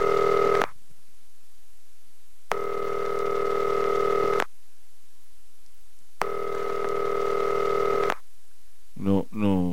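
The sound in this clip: Ringback tone of an international telephone call: three long, buzzy tones separated by silent gaps, followed by a brief voice at the end.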